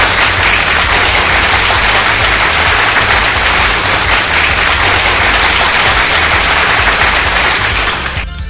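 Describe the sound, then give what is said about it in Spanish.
Loud, dense applause with rapid, crackling claps packed tightly together, sustained at full strength for about eight seconds before easing slightly at the very end. “Un aplauso.”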